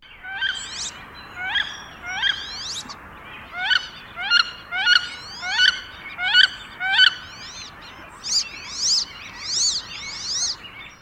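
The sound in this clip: Wood duck calls and whistles: many squealing, upward-sweeping whistled notes repeat in a steady, even rhythm. The calls are loud and clear, with no voices.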